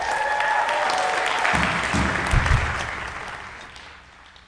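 Audience applause in a church welcoming a pastor to the stage. The clapping is dense and steady at first, then gradually fades toward the end.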